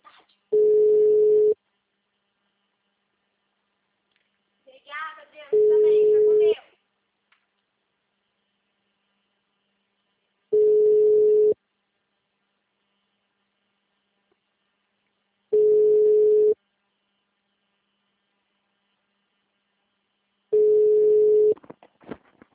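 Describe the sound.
Telephone ringback tone of an unanswered call: five steady, low-pitched one-second tones, each followed by about four seconds of silence, repeating evenly with no pickup.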